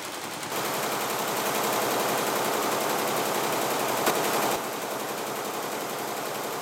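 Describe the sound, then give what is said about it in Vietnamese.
Weaving looms clattering in a village workshop in Thanh Hà commune, a dense, rapid, steady mechanical rattle that stays loud throughout and eases slightly after about four and a half seconds. “Cả xã Thanh Hà lại rộn ràng tiếng máy dệt.”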